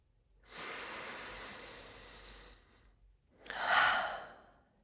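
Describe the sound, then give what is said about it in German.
Slow, deliberate breathing during a conscious-breathing exercise: a long, soft inhale through the nose, a brief pause, then a shorter, stronger exhale out through the mouth. “Ich atme durch die Nase ein und durch den Mund aus.”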